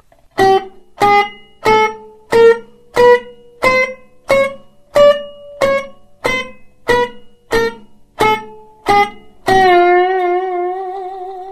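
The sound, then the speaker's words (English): Slide guitar playing damped staccato notes: a steady run of many short, clipped, loud notes, each cut off quickly, ending on one long ringing note with a wavering vibrato. “The idea is to make a big, loud, fat note that shuts down as quickly as possible. I'll do that again a little more slowly.”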